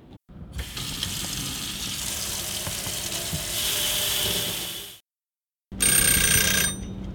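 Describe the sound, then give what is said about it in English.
Water runs steadily as a battery is soaked, a broad, even rush lasting several seconds that stops abruptly, then returns after a short silence as a brief, brighter burst. “Every second this thing is sending us data. Every second. We have a battery that we're going to soak.”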